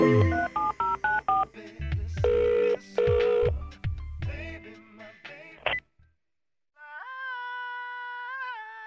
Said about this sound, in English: When you're all alone, pick up your phone and dial.